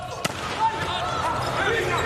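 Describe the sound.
A volleyball serve in a match, heard as a single sharp ball strike near the start amid busy arena noise and ongoing voices.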